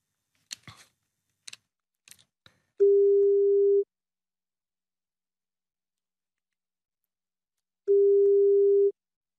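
A phone number is dialed for a Saturday-morning call, heard as several quick clicks of key presses, then two steady, mid-pitched ringback tones separated by a long silent pause.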